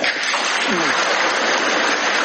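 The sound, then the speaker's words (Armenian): Deputies applaud in unison after an announcement by Kazakhstan's president, a continuous, even wash of many hands clapping with a faint voice briefly over it. “Ղազախստանի նախագահի այս մի հայտարարությանը պատգամավորներն արձագանք քեցին միահամուր ծափահարություններով։”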